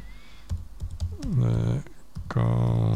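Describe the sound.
Clicky keystrokes tap on a computer keyboard while typing into a YouTube search, in short uneven runs, with a person talking over part of it.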